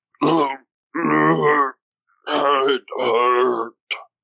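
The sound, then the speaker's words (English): A voice imitates the groans of Belch, a huge creature with giant purple antlers stirring from unconsciousness in pain, with a series of low, strained vocal moans separated by short pauses, the final one brief. “Belch is starting to kind of come to a little bit. He's groaning and kind of shaking his giant purple antlers.”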